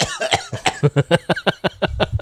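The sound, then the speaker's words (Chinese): A person with a lingering dry, itchy-throat cough after COVID coughs in a rapid run of many short, harsh bursts, fairly loud and with no talking. “我现在还在咳，就觉得有点烦。”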